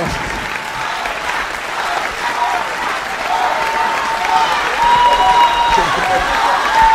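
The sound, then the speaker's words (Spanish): An audience applauds at the end of a live show, dense clapping that grows louder partway through, with cheering voices and whistle-like calls rising above it. “A ver, un aplauso chau, fuerte para Viajeros del Tiempo. Hermoso marco de público.”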